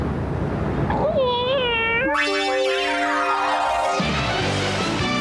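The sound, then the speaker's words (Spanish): A female cartoon cat meowing: a few high, tonal meows that bend up and down in pitch, then give way to sustained bright tones. “Vamos, gatita, sonríe.”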